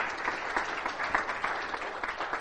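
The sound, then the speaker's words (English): A church audience applauds, steady dense clapping sustained and fairly loud throughout with no voices. “Give the Lord a hand of applause in His house.”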